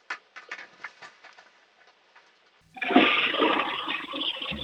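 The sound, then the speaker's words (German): A household toilet flushing: a few faint clicks and knocks, then a sudden, loud, sustained rush of churning water that continues to the end. “Na, dann lauf mal schnell los und zeig mir deine Klospülung.”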